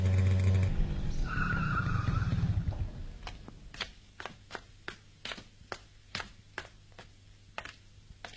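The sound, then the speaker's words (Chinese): A motorcycle speeds through quiet late-night streets and stops at a door. A loud engine roar with tire squeal fades over the first few seconds. It gives way to a steady, evenly spaced series of sharp taps. “在深夜寂静的街上，一辆摩托车飞速地穿过大街小巷，停在田海家的门口。”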